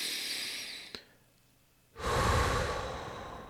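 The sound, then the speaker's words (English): A deep breath, heard as soft airy breath noise, a faint click and a quiet gap, then a louder, sustained rush of breathing with no talk. “if we can take that pause, that slight pause after the stimulus, take a deep breath.”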